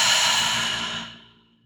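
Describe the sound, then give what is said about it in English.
A deep, breathy exhale, part of a slow relaxation breath taken in through the nose and out through the mouth. It starts as a strong, airy hiss and fades steadily away to near silence. “So take a deep breath in through your nose and out through your mouth.”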